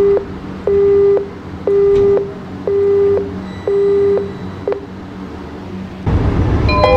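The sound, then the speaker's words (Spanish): A metro train's door-closing warning sounds as four steady electronic beeps of equal length, spaced by short gaps. Near the end a loud, broad rumbling rush sets in as the train departs toward Canal de San Juan station. “cierre de puertas.”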